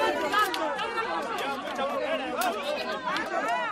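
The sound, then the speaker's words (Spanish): Crowd noise at a historical reenactment of the Christian reconquest of the city: many voices talk and call out over one another in a lively, continuous babble. “asistir a la recreación histórica de los episodios de la reconquista cristiana de la ciudad que tuvo lugar hace 779 años y que nos dejaron este sonido.”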